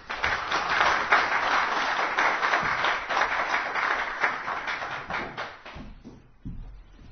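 An audience applauds to welcome a guest pastor at a Calvary Chapel church service. The dense, steady clapping holds for several seconds before tapering off near the end.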